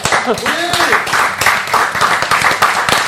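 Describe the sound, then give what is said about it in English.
A live studio audience applauds at the start of a comedy show. Dense, pulsing clapping runs throughout, with a voice speaking over it near the beginning. “Live studio audience, thank you for being live studio audience. Give yourselves a hand.”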